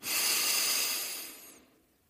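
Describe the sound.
A single deep breath drawn in during a guided relaxation exercise, a breathy hiss that starts strong and tapers away over about two seconds, heard alone.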